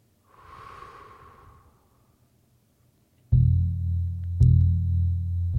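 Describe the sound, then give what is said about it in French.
A single slow, deep breath during a guided meditation, soft and airy, followed by a loud, low sustained tone that swells again partway through. “Alors je vous invite à fermer les yeux, à respirer profondément.”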